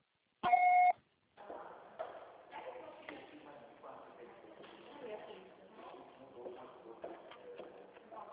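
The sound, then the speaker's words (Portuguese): A single answering-machine beep sounds: a steady, mid-pitched tone lasting about half a second. After a short gap, a person starts talking. “Grave seu recado. Você só será tarifado após o sinal.”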